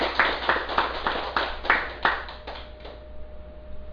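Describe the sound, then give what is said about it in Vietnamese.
An audience claps hands in a round of applause at the start of a Buddhist dharma talk. The claps come as a series of crisp, evenly spaced beats in near unison, then thin out and grow quieter toward the end. “Xin quý vị vỗ cho một tràng hỗ tay.”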